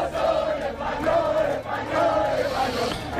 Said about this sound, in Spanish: El ruido no ha parado en prácticamente toda la noche. el ruido de decenas de miles, de cientos de miles de aficionados eufóricos por la victoria de España en el Mundial